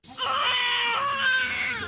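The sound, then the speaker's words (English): Newborn baby crying in a Nablus hospital, a continuous high, strained wail that holds steady at a loud level for nearly two seconds without a break. “In a Nablus hospital, the cries of a newborn as new life emerges from tragedy”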